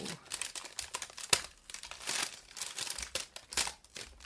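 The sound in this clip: Protective plastic film being peeled off a new item, faint, irregular crinkling and tearing in short bursts with small sharp crackles scattered throughout.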